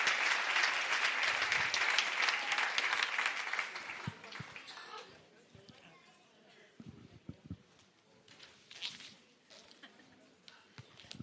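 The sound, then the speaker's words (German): An audience at a conference breaks into loud, dense applause that lasts a few seconds and then fades, giving way to a voice talking over scattered thumps and shuffling. “Geben wir der Lilo mal einen kräftigen Applaus.”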